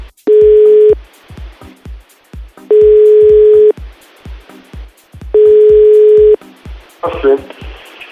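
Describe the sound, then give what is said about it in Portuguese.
A telephone line sounds as a call is placed: three long, steady low tones separated by pauses, with short rhythmic clicks in the gaps, then a brief garbled burst at the end. “Antes tarde do que nunca, vamos ligar pro Bruninho.”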